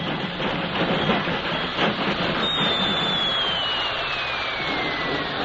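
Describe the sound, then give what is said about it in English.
A train rolls to a stop in a Denver freight yard. A loud, steady rumble of wheels and cars carries a thin, high squeal that slides slowly downward through the second half. “It was many hours later when a mud-spattered but proud Kathy and an exhausted but wiser millionaire drove to a stop in the Denver freight yard.”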